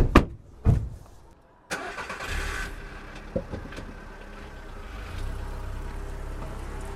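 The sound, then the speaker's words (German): Car sounds from a children's radio play about driving home. Two sharp thuds are followed by an engine starting with a loud burst, then a steady low running rumble with another brief knock partway through. “Glücklich und erleichtert fuhren alle fünf nach Hause.”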